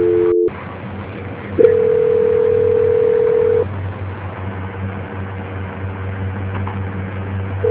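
Telephone call-transfer tone on a phone line: a brief tone that stops, a short silence, then a steady held tone of about two seconds, followed by low continuous line hum.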